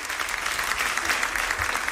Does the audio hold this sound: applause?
yes